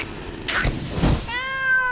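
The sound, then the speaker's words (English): A kitten gives a single high, drawn-out meow near the end, after a couple of brief muffled thumps. “Let's turn that chainsaw into a kitten.”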